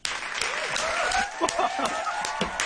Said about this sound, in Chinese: 好热闹， 系啊，好多人拍手啊！